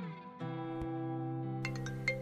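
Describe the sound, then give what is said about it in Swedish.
A mobile phone ringtone sounds in an apartment: a quiet electronic melody of steady, layered chiming tones, with a few short higher blips near the end. “Telefonen ringer och bryter tystnaden i Elsas lägenhet.”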